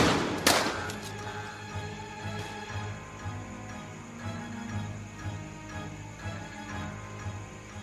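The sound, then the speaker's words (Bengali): A sharp gunshot from paramilitary police bursts out near the start, followed by a lower sustained rumble with steady tones beneath; no talk. “CRPF এসে কোনো কথা না বলে তাকে direct পরপর গুলি করে।”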